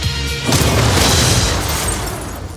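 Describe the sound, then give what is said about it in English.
A photon blast from a sci-fi energy weapon erupts as a loud, broad roaring boom that holds for about two seconds and then slowly thins out, with no voices over it. “That's a photon blast.”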